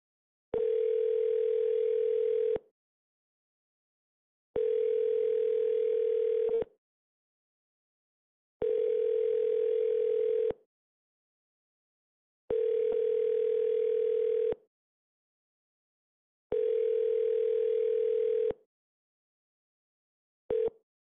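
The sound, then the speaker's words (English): Telephone tone heard while a call is being placed, a steady mid-pitched buzz sounding in five even two-second bursts separated by two-second silences, with a sixth burst cut short at the end. “This caller dialed the local Huntington.”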